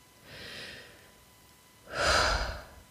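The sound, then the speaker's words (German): A slow breath out: a soft, airy breath comes first, then after a pause a louder, fuller exhale with a breathy rush that fades at the end. No one speaks. “Einfach nur mal ausatmen.”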